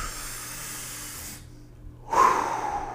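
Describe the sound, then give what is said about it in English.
A deep breath drawn slowly as a long, airy hiss, then a short silent pause, followed by a louder, fuller breathy rush of air. “take a deep breath with me. We're going to take a deep breath together.”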